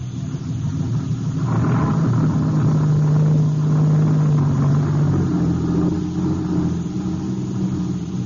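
Low, steady engine rumble of a vehicle being driven out, holding at an even, fairly loud level throughout with no talk.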